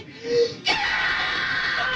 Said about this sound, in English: That's me screaming.